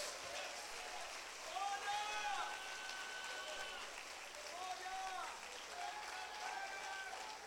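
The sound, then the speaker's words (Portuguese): Faint, steady patter of applause from a church audience, continuing beneath a voice speaking over it. “Se você crê, levante a mão, aplaude, faz alguma coisa.”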